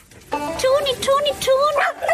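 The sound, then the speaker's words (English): A small female dog howls excitedly in a few short, high, wavering bursts, the pitch bending up and down between brief pauses across about two seconds. “She has this little howl. She gets so excited. Every time I come, she just howls and it's so cute.”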